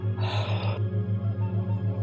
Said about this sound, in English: Deep breath in